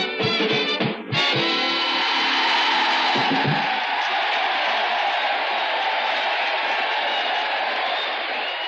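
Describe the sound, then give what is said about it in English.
Applause from an audience of soldiers, officers and enlisted men at Jefferson Barracks, Missouri: dense, steady clapping that holds at an even loudness and eases slightly near the end, after a brief burst of other sound at the start. “Yes, sir, that's the sound of our audience, the officers and men of Jefferson Barracks, Missouri.”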